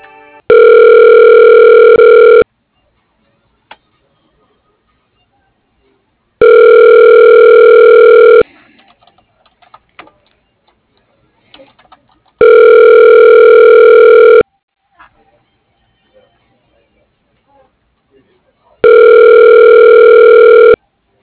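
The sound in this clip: Telephone line tone as a call is transferred to voicemail: four loud, even buzzing tones of about two seconds each, separated by long gaps of near silence with scattered faint clicks.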